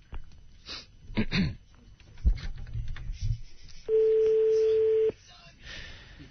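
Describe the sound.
A telephone ringing tone sounds as a call is placed, one steady mid-pitched tone lasting just over a second after a stretch of talk and a few short knocks.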